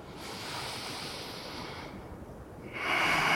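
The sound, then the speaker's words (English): Full breaths during a yoga exercise: a long, airy, steady rush of breath, then a brief dip and a louder breath near the end. “2 more full breaths wherever you are. Last one.”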